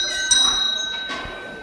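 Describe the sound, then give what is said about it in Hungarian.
A school bell rings for the start of class, giving a steady, high metallic tone with sustained overtones that lasts through the short clip at moderate loudness. “Megtörténik a becsengetés.”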